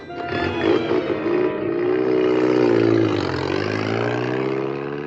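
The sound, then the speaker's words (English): A jeep engine running as it pulls away, a loud, continuous rumbling drone with a rough tone that swells through the middle and eases slightly toward the end. “Hecky jumps into the jeep. Father turns the ignition and drives off.”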